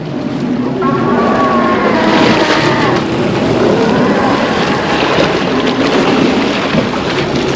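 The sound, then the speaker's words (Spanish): Huge waves of water crash toward a raft as two enormous sea creatures fight, a loud, continuous roaring surge of turbulent water and wind-like noise with rumbling swells throughout. “Los dos monstruos tratan de despedazarse. Levantan montañas de agua que llegan hasta la balsa, poniéndonos a punto de zozobrar.”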